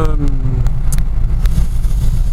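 Steady road rumble from a car driving along a clear road, a continuous low drone of engine and tire noise holding at an even level throughout, with no voices.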